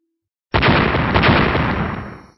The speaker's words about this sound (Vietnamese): Liên tục 8 tiếng nổ truyền ra.